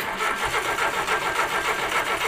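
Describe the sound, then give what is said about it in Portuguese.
Starter cranking on a Ford Corcel II car that fails to catch: a steady, rhythmic whirring of pulses that repeats for the whole clip without the engine firing, with no voices. “Um Corcel 2 que não pega”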